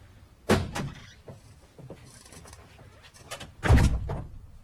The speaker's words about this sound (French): C'est à la porte qu'on frappe, et une voix distincte ne tarde pas à succéder au coup.